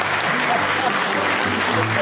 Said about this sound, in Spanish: Después vamos a aplaudir.